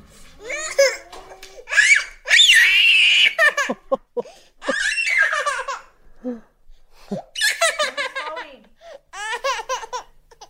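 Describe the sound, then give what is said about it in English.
A toddler cries and screams in a tantrum while his mother folds clothes, giving loud, high-pitched wailing bursts broken by short pauses, with some shorter whimpering and babbling sounds between them. “let's just have a listen to what this tantrum sounds like. Let mummy fold her clothes.”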